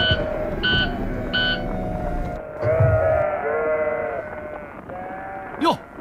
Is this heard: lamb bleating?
yes